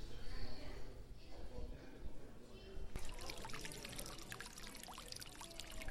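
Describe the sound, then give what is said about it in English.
A fountain at the Conservatory of Flowers in Golden Gate Park sends out continuous splashing, trickling water that turns brighter and fuller partway through, with faint voices murmuring underneath. “That's the sound of water and fountain. Live here on location, standing here.”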